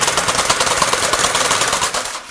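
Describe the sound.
A knitting machine running, giving a fast, dense mechanical clatter like rapid typing that keeps up steadily and then drops off in the last moments.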